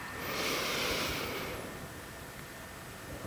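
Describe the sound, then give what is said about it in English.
A deep breath taken at the close of a meditation, one long, airy rush that swells and then tapers away over about a second and a half, alone without any talk. “A deep breath lets us know it's time to let go of the meditation.”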